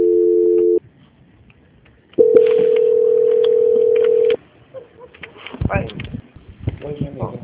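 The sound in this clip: Telephone ringback tones from an outgoing call: a short steady tone, a pause, then a longer steady tone, after which people begin talking.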